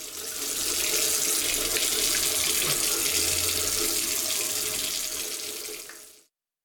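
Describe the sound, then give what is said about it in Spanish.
Water runs steadily from a tap in one continuous, even rush that holds at the same loudness for about six seconds before cutting off abruptly. “Si no cerras la llave mientras lavas los platos o te cepillas los dientes, estás desperdiciando el agua”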